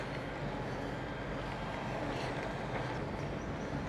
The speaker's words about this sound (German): Das Geräusch, was ihr jetzt hier hört. Trecker, Mistanhänger und der verteilt die Scheiße schön auf der Wiese.